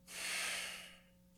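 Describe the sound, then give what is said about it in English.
Soft breathing during a guided breathing exercise: a single slow, airy breath that swells and then fades away, quiet and unhurried, with no talking over it. “Inhale into the belly. Exhale out of the belly. Exhale out of the heart.”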